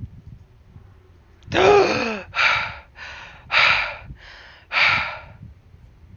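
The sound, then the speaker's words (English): A man's deep, rasping gasp for air as a figure turned to stone comes back to life, followed by several heavier, ragged breaths in an uneven rhythm. The breathing is loud and stands alone, with no talk. “Deep inhale of breath. He can breathe.”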